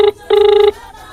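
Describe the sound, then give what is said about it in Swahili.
Telephone ringing tone while calling a prize winner: two loud, steady electronic beeps at an unchanging mid pitch, a short one followed by a longer one after a brief gap. “Huwa tunachukua muda mrefu sana, tunapoteza muda kwenye Papaso, tunapigia washindi simu wapokee.”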